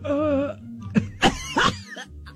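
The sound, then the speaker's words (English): A person coughs, with two or three sharp, harsh bursts in quick succession after a short throaty vocal sound, fairly loud against a quiet background. “I coughed. That was not a sneeze.”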